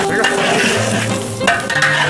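Food sizzles and hisses as it is stir-fried and flipped in a pan. A loud, continuous frying hiss carries scraping stirring strokes throughout, and no one speaks.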